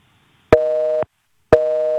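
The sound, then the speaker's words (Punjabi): Telephone busy signal on a dropped call-in line: two clear, evenly spaced steady beeps of equal length, heard alone with silence between them. “ਲੱਗਦਾ ਫਿਰ busy ਚੱਲ ਗਏ ਤੁਹਾਡੀ।”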